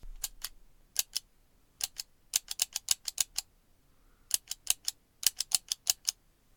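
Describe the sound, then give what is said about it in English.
Tally clicker counters click crisply as they are pressed to count bats leaving their roost at dusk: many sharp, dry clicks in quick bursts separated by short pauses, with a faint background hiss. “we use tally or clicker counters, which produce a crisp, satisfying click when pressed, the second of the noises of bat work.”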